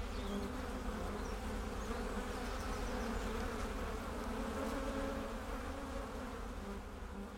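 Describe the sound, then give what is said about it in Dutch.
Honey bees buzz inside a beehive holding tens of thousands of bees: a dense, steady droning hum that stays level throughout, with no voices. “In deze kast zitten misschien 50.000 tot 60.000 bijen.”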